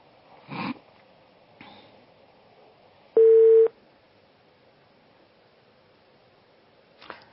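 A short, steady, mid-pitched telephone line tone sounds once after a caller's call drops, loud against near silence, with a few faint clicks before and after.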